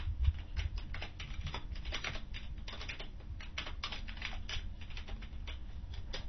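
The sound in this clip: Fingers type a web address for XM radio activation on a computer keyboard, a quick, uneven patter of many light key clicks running steadily throughout, faint and with no talk.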